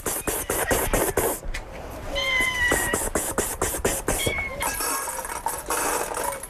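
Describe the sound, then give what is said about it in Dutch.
Cats meowing at a largely abandoned kibbutz near the Gaza Strip, where a woman feeds cats left behind; a few high, drawn-out meows sound among many sharp clicks and knocks. “Ze geeft er de katten te eten die massaal werden achtergelaten in de chaos waarin de bewoners op 7 oktober vertrokken.”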